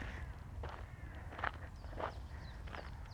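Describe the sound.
Footsteps during a walk, a few separate soft steps with short crunchy transients spaced unevenly over a steady low background, with no talking.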